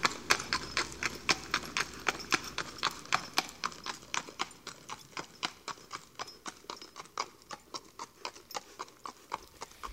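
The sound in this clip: Hooves of a very old horse clip-clop steadily along a street, many even, crisp beats in a regular walking rhythm, fairly quiet and alone.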